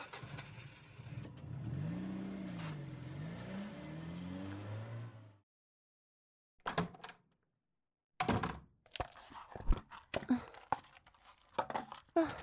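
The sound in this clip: A car engine runs and revs with a wavering pitch for several seconds, then cuts out into silence, followed by a scattering of sharp thunks and knocks.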